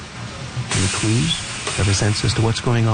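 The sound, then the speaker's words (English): Steady hissing from a piston depositor squeezing donut batter into a new fryer at a donut factory in Sussex, New Brunswick, begins after a short pause and runs continuously beneath a person talking and asking questions. “every psst you hear is a piston squeezing donut batter into the new fryer”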